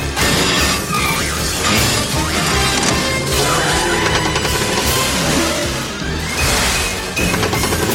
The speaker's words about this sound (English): bowling ball collides with his gear shift.